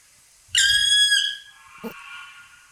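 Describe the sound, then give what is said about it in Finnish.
A black woodpecker gives one long, shrill, whistled call note. The note is loud and steady, then thins out and fades. “Toihan kuulostaa palotikkailta.”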